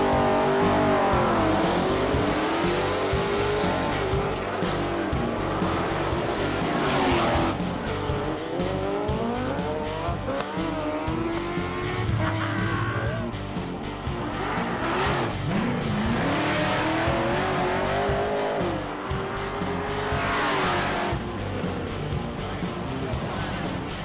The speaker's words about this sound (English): now it's nighttime, Tuesday night, time for a little drag racing.